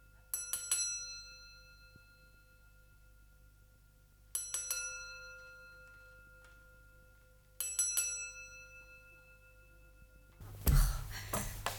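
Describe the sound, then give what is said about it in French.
A servant's call bell rung three times, each a bright, clear ding with a long ringing decay, spaced several seconds apart, followed by a brief burst of louder noise at the end. “Fernande, vous n'entendez pas? Ça fait trois fois que je vous sonne.”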